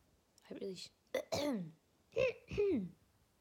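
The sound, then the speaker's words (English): Throat clearing in a few rough, voiced bursts separated by short pauses, fairly quiet and heard alone without talk. “Sorry, got something in my throat.”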